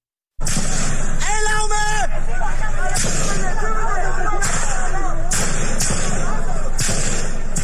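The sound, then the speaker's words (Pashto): Gunfire from the ruling military at protesters in Mandalay, Myanmar: several sharp, loud cracks ring out at irregular intervals over a noisy street scene with raised voices. “دا د برما په دویم لوی خار ماندالی کې پر مظاهره چانو د حاکم پوځي نظام لخوا د ډزو یو صحنه ده.”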